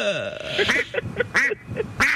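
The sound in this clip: Duck quacking in a rapid series of many short, nasal, raspy quacks, loud and close together.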